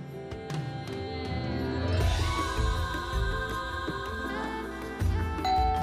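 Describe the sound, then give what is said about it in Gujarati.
Doorbell ringing during a havan ritual, a faint, tonal ding-dong chime with a few ringing notes that sit low in level and linger. “Doorbell વાગે છે કોઈ નથી કોઈ નથી”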